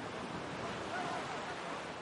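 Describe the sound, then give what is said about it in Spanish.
Waves on a beach where a father and daughter walk, a faint, steady rushing wash of surf with no distinct breaking crashes. “Padre e hija caminan de nuevo por la playa.”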